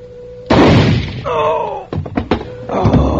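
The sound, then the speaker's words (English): Shotgun firing in a radio drama: one sudden, loud blast that dies away quickly. A short vocal cry and a few sharp thumps follow. “The gun went off.”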